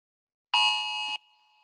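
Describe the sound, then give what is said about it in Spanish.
A phone's emergency alert tone blares in a harsh, steady buzz for about half a second, then drops to a fainter tone that lingers to the end, with no voices. “nos sonó la alarma de... Disculpen, pero mientras estamos grabando nos está sonando el aviso de la gobernadora de que pues ya tenemos que irnos para las casas.”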